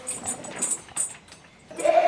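A goat bleats in an alpine landscape of bushes and leaves. Soft scattered rustling and light noises come first, then a single loud, wavering bleat at the end.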